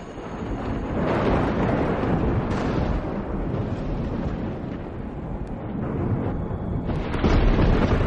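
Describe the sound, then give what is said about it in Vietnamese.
Thunder strikes an old village pagoda: a loud, continuous, rough rumbling roar that stays heavy throughout and swells again near the end. “bỗng nhiên một tiếng sét kinh thiên động địa đánh thẳng xuống ngôi chùa ở đầu làng.”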